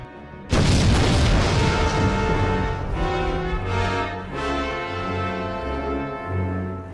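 A sci-fi superweapon fires a laser beam from a space station and blows up a planet: a sudden, very loud roaring blast that holds for a few seconds, then thins out while sustained tonal notes ring underneath.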